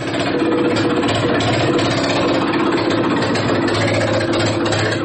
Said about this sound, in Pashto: دا اوازونه د 400 په ملګاډیر کلی کې د ګوړې په ګاڼه کې د لګېدلې جنریټر دی، د کم په مدد چې غني اوبه کیږي او بیا ترې ګوړه جوړېږي.